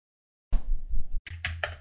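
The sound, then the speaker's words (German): Typing on a computer keyboard, a short run of soft clattering keystrokes, a brief gap, then a few sharper clicks, with no voices. “Ich versuch's immer noch irgendwie einzutippen. Kannst du es mal bitte schreiben? Ich kann's dir natürlich schreiben,”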